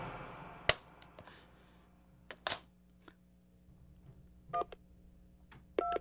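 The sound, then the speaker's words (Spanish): Telephone keypad dialing tones: a few faint clicks, then two short, clear dual-tone beeps spaced apart, quiet against a low background hum, with no voices. “Yo marqué el número telefónico de cada primo, cada amigo en quien podía pensar,”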